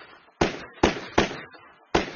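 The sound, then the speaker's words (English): Gunshots fired again and again at a man on a bunk: four sharp, loud bangs in quick but uneven succession, each cutting off into a short decaying tail. “He fired again and again at the blind man”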